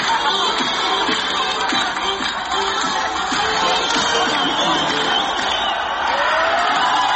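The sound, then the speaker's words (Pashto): A crowd celebrates a victory in the streets of Herat, Afghanistan, with people dancing. The noise is dense and steady, with scattered whoops and cheers rising from a constant roar. “په هرات ولایت کې هم خلک د دې بریا هرکلی ته راوتلي وو او په لارو کوڅو کې اتڼونه او خوشحالۍ کولې.”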